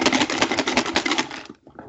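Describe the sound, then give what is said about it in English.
Paper entries are shaken inside a box for a prize drawing. The fast, dense, even rattle runs for about a second and a half, then stops abruptly. “Shaking my USA box for Roxana's Hymatic Minolta point and shoot.”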